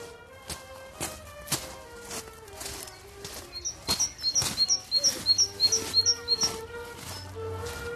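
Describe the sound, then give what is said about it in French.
A great tit sings on the pit head of a coal mine, giving a quick series of high, bright repeated notes over footsteps and low background rumble. “la première charbonnière de l'année. Une petite mésange qui est sur le carreau de fosse.”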